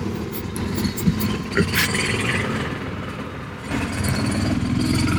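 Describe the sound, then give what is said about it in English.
Vehicle engine passing by: the Bronco helmet mobile at a Boise State football game, a steady, rumbling engine noise with a brief dip in level before it swells again toward the end. “For our audio audience, the Bronco helmet mobile just drove by.”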